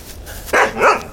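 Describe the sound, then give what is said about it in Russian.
A dog barks twice in quick succession on the far side of a mesh fence. The barks are short and fairly loud over a low background hiss. “По другую сторону забора из сетки появляется пес Ры.”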